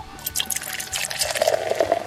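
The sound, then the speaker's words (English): A drink poured into a glass gives a steady trickling splash with a brighter filling tone through the second half. It is fairly faint and heard alone, with no talk. “How about you pour it into that glass? I can do that for sure.”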